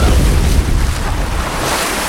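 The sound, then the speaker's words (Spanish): Water flooding a cave in a Spanish-language drama: a loud, steady roar of rushing water, a dense wash of noise that fills the whole moment with no voices heard. “¡La gruta se inunda! ¡Pronto no podremos salir!”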